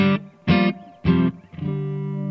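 An electric guitar plays through a two-channel amp with reverb: three short, punchy chords separated by brief gaps, then a held chord that rings out steadily to the end.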